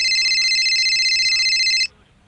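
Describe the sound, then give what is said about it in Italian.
Mobile phone ringing with a steady, bright electronic trill that runs alone for about two seconds, then cuts off abruptly into quiet. “In quel momento, il mio cellulare squillò.”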